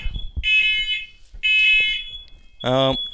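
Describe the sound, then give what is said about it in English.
An electronic alarm goes off in two loud bursts of rapid, shrill beeping separated by a short gap, with a thin high tone lingering between them and a voice breaking in at the end. “sorry, it's the von Trier alarm.”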